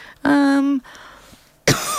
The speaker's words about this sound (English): there's a cough coming up